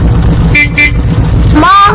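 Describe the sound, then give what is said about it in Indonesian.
A car passes with a loud, steady roar of road noise. Two short horn toots cut through it midway, and a longer tonal sound follows near the end. “Teman-teman, ada mobil lewat. Mobil.”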